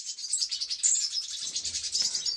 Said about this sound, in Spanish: El canto y la nota de esta ave es bastante compleja, con una gran variedad de notas, aunque poco musicales.